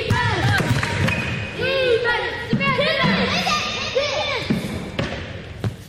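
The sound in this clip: A basketball is dribbled in a gym during a girls' youth game. Sharp bounce thuds land irregularly, a few at a time, beneath loud overlapping shouts and chatter from girls on the court.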